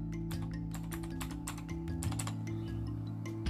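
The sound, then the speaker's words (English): Someone types the word 'firewall' on a computer keyboard: many quick clicking keystrokes in an uneven rhythm with short gaps, moderately loud over a steady low hum. “And also, if I was to type in firewall,”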